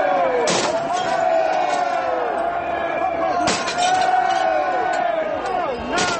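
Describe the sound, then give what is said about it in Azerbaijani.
Protesters smash the glass windows of an RBS bank branch in London during demonstrations against the G20 summit: three sharp, bright crashing impacts spaced a few seconds apart cut through a loud, continuous crowd roar full of shouting voices. “Şüşəsi sındırılan Londondakı RBS Dövlət Bankının filiallarından biridir. Britaniya paytaxtında minlərlə insanın keçirdiyi etiraz aksiyaları bəzi küçələrdə beləcə zorakılıqla nəticələnib.”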